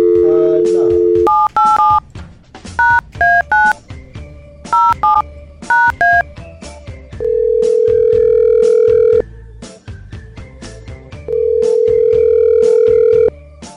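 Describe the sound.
A telephone is dialed for a call: quick groups of touch-tone keypad beeps, followed by two long, steady ringing tones separated by a pause.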